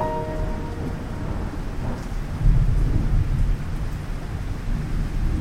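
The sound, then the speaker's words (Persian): Thunder rolls through a steady downpour, a deep rumble swelling midway and lingering beneath the constant hiss and patter of rain. “یه رعد و برق شد بارون گرفت.”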